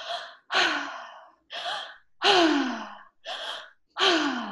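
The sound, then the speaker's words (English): A breathing exercise: three cycles of a deep, full inhale followed by a longer, breathy exhale out through the mouth, loud and rhythmic with short gaps between breaths and no talk. “a deep and full inhale that you fill your chest center, your lungs, and then letting it out your mouth. So it sounds like this.”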